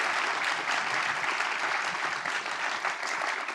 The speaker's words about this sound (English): Put your hands together, our studio audience, for Dr. Jonathan Coppell.